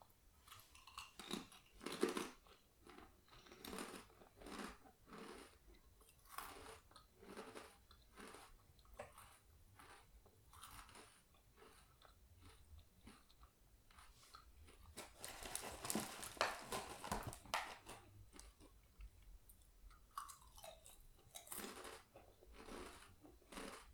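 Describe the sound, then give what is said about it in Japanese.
Crunchy, strongly seasoned lemon-flavored snack is chewed in many crisp bites and grinding crunches, faint and uneven in rhythm, with no talk. “濃いめの味付けのやつをいただきますねせっかく持ってきたからいい音するんじゃないかな。”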